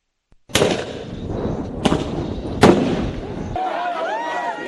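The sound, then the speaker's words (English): Police fire tear gas at anti-government protesters in the streets of Nairobi, Kenya: three sharp, loud bangs burst over a continuous noisy roar, followed by a shift to wavering, higher-pitched cries. “The sounds of police using tear gas on protesters in Kenya.”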